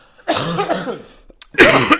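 A person coughs twice, first a longer raspy, throaty cough, then a short, louder burst after a brief pause.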